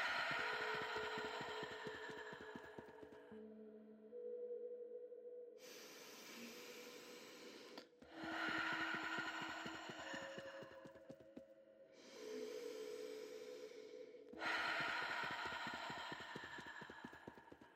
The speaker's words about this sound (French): Maintenant, avec la pulpe de tes doigts, tu vas tapoter sur ton thorax en respirant bruyamment. Inspire par le nez. Expire par la bouche.